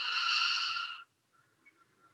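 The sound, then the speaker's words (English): A single deep breath during a guided tapping and breathing exercise: a soft, airy hiss lasting about a second, followed by near silence with only faint traces. “Take a deep breath in and out. One more full breath in.”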